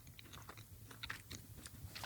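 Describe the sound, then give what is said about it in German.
Faint biting and chewing of small, soft, biscuit-like wafers with a fruity, citrusy taste: quiet, crisp mouth sounds come in an irregular run. “Aber es sind viele kleine Plättchen. Kann ich da gleich mehrere auf einmal essen? Oder ja, starte doch mal mit einem.”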